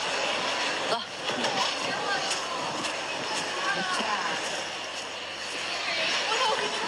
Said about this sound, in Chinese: 这个风吹的人